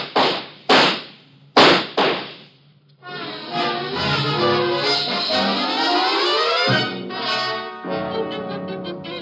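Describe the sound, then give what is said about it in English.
Three sharp gunshots ring out in a radio drama, each a loud crack with a short decaying tail, followed after a brief pause by swelling dramatic music. “Watch out, he has a gun. Get down. Shoot him, Rubar”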